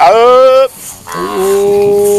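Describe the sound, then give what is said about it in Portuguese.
Cattle from a herd moo, two drawn-out bellowing calls with a short pause between them, loud and close, the second call steadier and lower in tone. “Boiada boa.”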